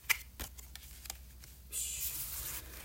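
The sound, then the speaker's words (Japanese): Tarot cards are dealt out two at a time, with a few soft taps and slaps followed by a steady papery rustle, all faint. “今のうちにですね、え2枚ずつ、えカードをですね、振り分けてみようかと思います。”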